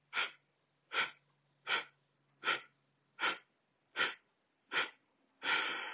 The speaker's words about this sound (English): So take an inhale and exhale.